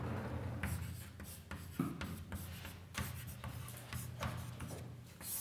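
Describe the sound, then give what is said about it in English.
Handwriting on a surface makes soft, scratchy strokes in quick, irregular bursts with brief pauses between words. The sound is faint and there is no talk. “I write down Wheeler”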